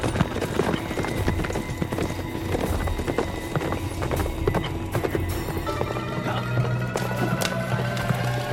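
A horse gallops hard during a chase: many rapid, clattering hoofbeats in a continuous driving rhythm, with a whinny toward the end.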